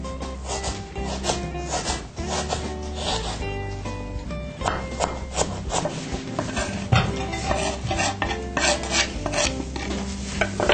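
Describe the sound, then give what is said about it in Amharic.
Onions are crushed and chopped in home cooking with many loud, rhythmic scraping and pounding strokes that continue steadily throughout. “መጀመሪያ ሽንኩርት አድቅቀን እንከትፋለን”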